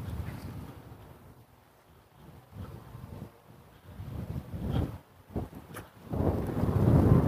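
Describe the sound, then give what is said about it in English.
Strong, chilly wind blowing on a morning walk, a low rumbling buffet that swells and fades in gusts. It grows heavier and loudest toward the end, with no talking. “But the wind is blowing rather strongly this morning.”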